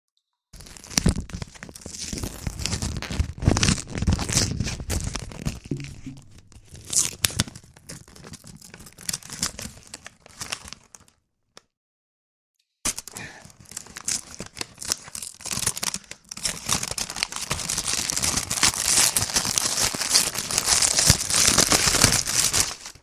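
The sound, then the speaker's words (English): Paper tears as an envelope is ripped open, making a long, crinkly rasp with crunchy crackles. The sound stops briefly partway through, then resumes and grows brighter and steadier toward the end. “We're going to do some ASMR envelope opening.”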